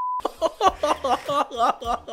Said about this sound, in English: I'll beep that out.